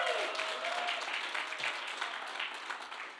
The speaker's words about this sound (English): can we do something we do every Sunday? And that is, can we throw our hands together for all those here at the Nampa Civic Center? Throw your hands together.